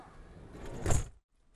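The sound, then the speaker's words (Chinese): A door shutting on a rainy day: a soft, swelling whoosh of sliding movement builds to a brief peak, then stops abruptly into near silence, quiet throughout. “关门了。”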